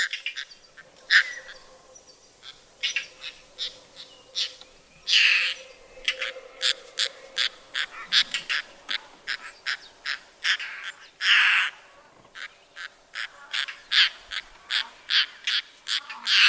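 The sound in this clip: A bird species that has become rare calls in a rapid, irregular series of short, sharp notes, broken by a few louder, longer bursts, with no voices.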